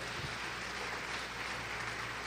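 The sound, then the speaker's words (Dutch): Congregation applause during a church service: a faint, continuous wash of clapping that holds at an even level throughout, without standout individual claps. “Kom, geef de Heer een applaus.”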